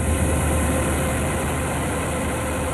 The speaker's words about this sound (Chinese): 连片玉米田里满目金黄，收割机正开足马力作业，转运车辆紧随其后